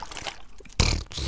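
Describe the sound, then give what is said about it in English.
A voice imitates a splashing noise with a short wet, hissing sputter that swells into a louder gushing burst near the end. “I'm trying to make a splashing noise. It's quite hard.”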